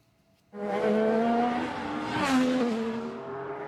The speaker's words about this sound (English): An IndyCar race has kicked off in the U.S. Capitol.